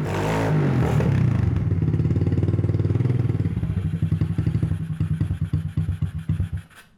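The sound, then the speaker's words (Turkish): Motorcycle engine running as it warms up, with a carburetor fault and clogged jets: a loud, steady low rumble gives way to uneven, pulsing firing beats that grow sparse and fade out at the end. “Evet, çalışıyor. Motorun evet, takır sesi tukur güzel. Sesler gelmiyor. Duman dağıtmıyor.”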